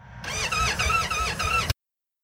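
Motorcycle electric starter cranking, a whining, wavering drone that pulses in a few regular beats, then cuts off abruptly into silence.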